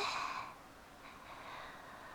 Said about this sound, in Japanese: 息を思いっきり吐いて、吸って、吐いて。